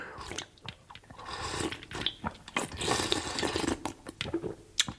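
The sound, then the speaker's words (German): Wet slurping and gulping as a man drinks four raw eggs cracked against a wall one after another, then empties a bowl of milk, an irregular run of faint liquid swallowing and smacking noises. “nahm 4 Eier, schlug sie an der Wand auf und trank eins nach dem anderen aus. Endlich leerte er noch einen Weitling Milch.”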